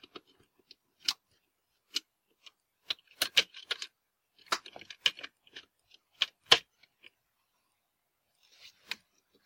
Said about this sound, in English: First the screws at the power cable connector.